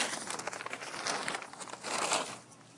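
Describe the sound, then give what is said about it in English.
Paper blown about by the wind rustles and crinkles in a steady, soft, papery crackle. It is faint throughout, with slight swells in loudness and no voices. “Whoa, looks like the wind blew the paper all over the place.”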